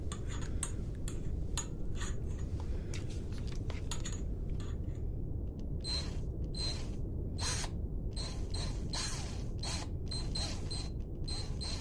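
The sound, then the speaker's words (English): Brand new, clean screws are handled and make many small metallic clicks, taps and light rattles, soft and irregular over a steady low background hiss. “These nice, beautiful, brand new, clean screws.”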